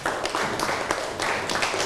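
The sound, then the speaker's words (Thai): Classroom applause for a student who has just answered, a steady patter of many hands clapping together at an even level for a couple of seconds, with no talk over it. “นั่งลงได้ครับปรบมือให้กับเพื่อนหน่อยครับ”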